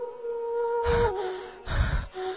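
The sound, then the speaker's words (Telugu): Heavy, out-of-breath panting after running in fright: two loud, rough gasping breaths, separated by a short pause. “నాకు ఆయాసం వస్తోందిరా, నేను ఇంకా పరిగెత్తలేను.”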